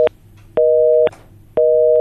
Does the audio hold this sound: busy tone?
yes